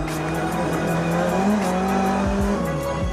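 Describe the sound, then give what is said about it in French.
A turbocharged race car drives at speed, its engine droning steadily under a thin, high turbo whistle that holds throughout. Near the end the engine note dips briefly twice. “On entend bien le turbo qui siffle.”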